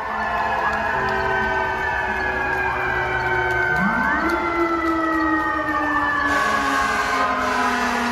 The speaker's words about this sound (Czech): V utichlých ulicích tu znějí jen kostelní zvony, sirény a potlesk pro zdravotníky.